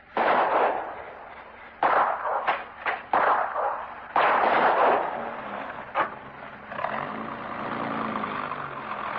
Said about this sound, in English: I warn you! I'll shoot!